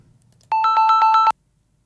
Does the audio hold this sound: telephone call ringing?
yes